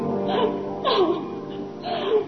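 A woman crying: three wavering, sobbing wails, each sliding downward in pitch, separated by quieter, shaky breaths.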